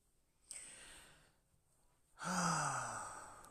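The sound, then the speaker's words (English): A deep breath is taken with a sigh-like quality: a short, quieter breath, then after a pause a longer, louder airy breath that slowly fades. “I just take a deep breath.”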